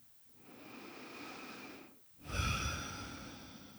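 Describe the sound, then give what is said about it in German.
Quiet deep breathing during a calm grounding exercise: a slow, soft inhale followed after a brief gap by a fuller, breathier exhale, alone with no talk. “Nimm ein paar tiefere Atemzüge ein und aus.”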